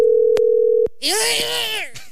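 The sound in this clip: A telephone tone sounds as a call is placed to a settlement centre: one steady, mid-pitched tone holds for under a second, then stops, and a voice follows.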